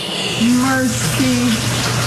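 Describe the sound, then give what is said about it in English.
Water pours through the storm-damaged roof of a historic church and out of its light fixtures. A steady hissing gush runs throughout, with a voice speaking briefly over it. “The roof was no match for the powerful storm. The water was just pouring down from all inside the light fixtures here,”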